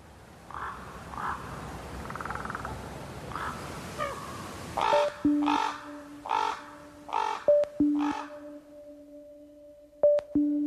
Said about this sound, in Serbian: Debelokljuni gavran, dugačak oko 65 cm i težak 1,5 kg, najkrupnija je ptica pevačica, a hrani se svime od stočne balege preko larvi tvrdokrilaca do mesa.